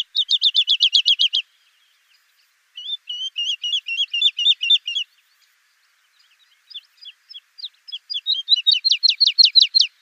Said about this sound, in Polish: No to może posłuchajmy lerki wiosennej.